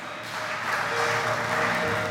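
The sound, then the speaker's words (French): A church audience applauding during a bilingual English and French service, with steady, loud, dense clapping sustained throughout without a break. “Let's put our hands together. Gloire au Seigneur, acclamons pour Dieu.”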